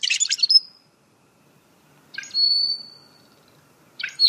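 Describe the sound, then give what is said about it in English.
A rusty blackbird calls in three bursts of squeaky, creaking notes separated by silence. Each burst ends in a thin, high whistle, and the last is cut short. “That's the call of the rusty blackbird, a ubiquitous species”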